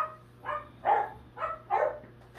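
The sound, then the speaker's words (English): Dogs barking in a few short, raspy bursts at an even pace, fairly faint over a steady low hum, with no talking. “can you shut those dogs down?”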